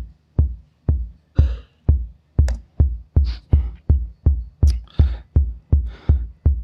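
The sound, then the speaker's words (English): A fast, simple TR-808 drum machine pattern of the kind used in dance music: deep booming kick hits on a steady, even pulse, with occasional crisp snare or clap-like hits layered over some beats, loud and alone. “This is the TR-808 kit, which is quite popular in dance music.”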